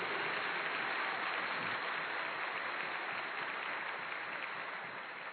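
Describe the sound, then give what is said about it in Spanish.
Audience applause rises at a religious gathering: steady, dense clapping that holds at an even level for about five seconds before easing slightly, with no voices over it. “Denle ese aplauso fuerte al Señor.”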